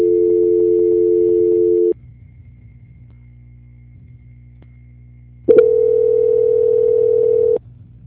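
Steady telephone tones play while a call is being transferred: two long, flat, mid-pitched tones of about two seconds each, separated by several seconds of low hum.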